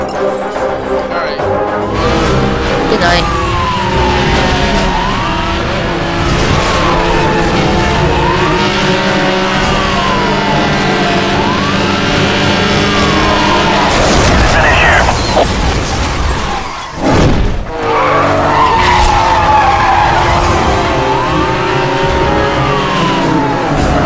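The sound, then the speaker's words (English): A car crashes in a police-chase racing video game. Engine whines with repeated rising and falling sweeps give way, past the midpoint, to a sharp, loud burst and a brief dip, then the engine drone carries on. “Yeah, it's a crash. That's bad.”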